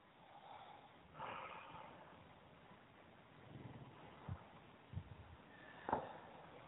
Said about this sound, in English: Go ahead and take the 3 deep breaths.